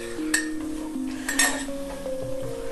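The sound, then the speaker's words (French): A utensil scrapes and clinks against a dish as pasta with lardons in an egg sauce, loosened with cooking water, is stirred. A few sharp metallic clinks stand out over quieter scraping, with no talk. “Et j'essaye de mettre les lardons un peu partout au milieu. C'est toujours compliqué, je trouve, de remuer un plat.”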